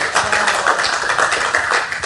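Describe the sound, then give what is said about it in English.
A church audience claps their hands together, a dense, steady patter of many overlapping claps at an even loudness throughout. “Please put your hands together unto the Lord and take your seat.”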